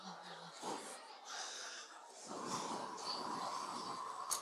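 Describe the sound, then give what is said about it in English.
A group of people take a deep breath together, their overlapping breaths blending into a sustained, airy whoosh that swells and holds through the second half. “So let's take another deep breath together.”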